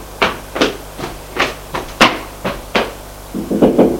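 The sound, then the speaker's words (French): Knocking on a bedroom door: a series of sharp wooden raps at uneven intervals, ending in a quicker cluster of knocks. “Il sort de sa chambre en vitesse. Et va frapper à celle de Jean.”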